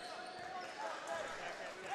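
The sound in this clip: Faint basketball dribbling during a high school boys' game, Rockford versus Zeeland East, with repeated bounces sitting under a steady murmur of gym crowd noise.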